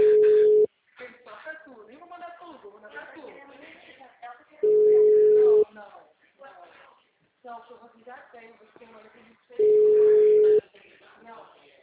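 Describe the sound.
A telephone ringback tone sounds while a call is placed: three steady, mid-pitched tones, each about a second long, evenly spaced several seconds apart, with a person talking in the gaps.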